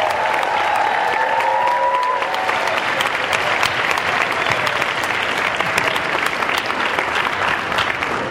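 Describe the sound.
An audience at a worship gathering applauds to welcome a speaker with loud, dense, even clapping that holds steady throughout.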